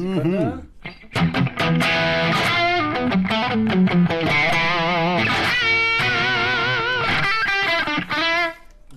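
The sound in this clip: Electric guitar played through a Brit-style amplifier, the UBL Leeds, set to light distortion. Several phrases of ringing single notes and chords follow one another with brief pauses between them.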